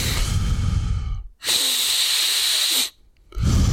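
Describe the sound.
Deep breaths drawn in and released during a finger-tracing relaxation exercise: loud, breathy hissing in three long stretches separated by brief pauses, with no talking.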